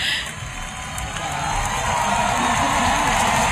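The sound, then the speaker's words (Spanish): A concert audience cheers euphorically, a dense, steady roar of voices that holds loud and even and swells slightly toward the end. “Pues bien, el público lo ha celebrado así, eufórico, esta segunda maternidad de Rigoberta Bandini.”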